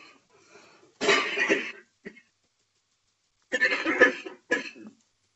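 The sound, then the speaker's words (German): Someone coughs after choking while swallowing: harsh, raspy bursts in two clusters separated by a pause, with a short throat-clearing catch between them. “habe mich gerade verschluckt.”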